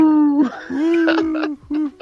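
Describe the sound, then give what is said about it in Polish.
A man's voice imitates an owl hooting beside a tent on a bushcraft camp, giving three steady, drawn-out hoo tones, the middle one longest, separated by short breaks. “Huczała sowa, zaczęła huczeć. No i tak huczy sowa.”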